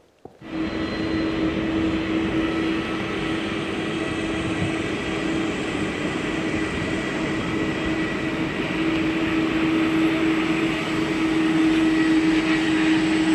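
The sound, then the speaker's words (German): A Boeing jet engine running inside an old VW T3 van gives a loud, steady roar with a humming tone underneath. It starts abruptly and holds an even level throughout, with no voices. “Da rechnet niemand in so einem alten VW. Schöner T3. T3, genau dass da ein Boeing 7, ein Boeing Triebwerk drin ist.”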